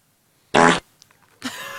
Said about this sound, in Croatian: Jel smijem prdnuti ispred tebe?